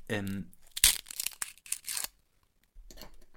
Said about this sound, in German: Das war der Glückskeks. Aber guck mal, da ist ein Zettel drin, Mausi.